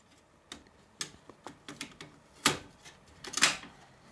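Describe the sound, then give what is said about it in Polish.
A cassette being loaded into an Aiwa AD-WX707 cassette deck using power eject produces a series of quiet plastic clicks and taps, with two louder mechanical clatters later on and no voices. “Naciskam, proszę Państwa, eject, czy znaczy nie eject, tylko power eject. Wkładam, proszę Państwa, kasetę.”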